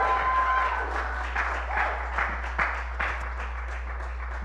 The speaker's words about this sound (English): will you guys help me thank and welcome my wife for going through this?